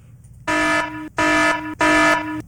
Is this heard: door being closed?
no